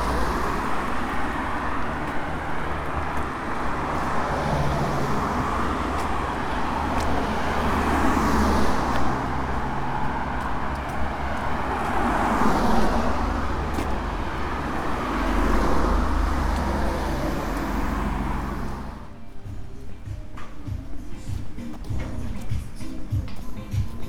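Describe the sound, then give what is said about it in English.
Busy traffic roars along Torbay Road heading into Torquay as a continuous wash of engine and tyre noise that swells and eases, then changes character near the end. “Following the busy Torbay Road. Heading into Torquay.”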